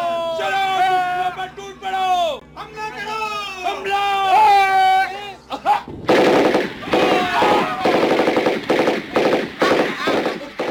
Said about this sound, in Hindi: उधर से दुश्मन आ रहे हैं, फायरिंग शुरू करो।